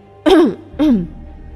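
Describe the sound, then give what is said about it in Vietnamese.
A voice performs a character coughing a few times to clear his throat in a narrated story: two loud, voiced, throaty coughs, each falling in pitch, with a short gap between them. “Triển Chiêu vừa mở miệng nói, chợt cảm thấy giọng nói của mình không được bình thường, ho vài tiếng điều chỉnh hô hấp, hỏi Bạch Ngọc Đường”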